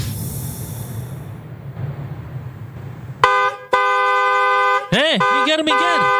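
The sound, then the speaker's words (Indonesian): A car horn sounds in a long, steady, loud blast after a few seconds of low traffic rumble. The blast breaks off briefly partway, then ends in a wavering tail. “Kok iso elo aku sing diklakson?”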